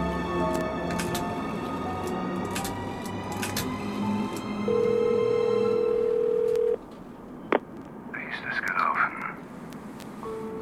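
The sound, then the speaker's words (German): A telephone tone from a call being dialed holds steady for about two seconds over a murky background, then a single sharp click follows. “Ich rufe meinen Partner drüben an.”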